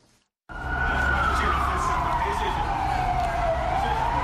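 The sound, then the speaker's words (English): Siren of a police water cannon vehicle wailing in Harare, Zimbabwe, as police break up a street protest: a loud, continuous wailing tone that slowly falls in pitch and then starts to rise, over dense, rumbling background noise. “That is the siren of a water cannon vehicle wailing as Zimbabwean police tried to break up a protest calling for the resignation of President Robert Mugabe.”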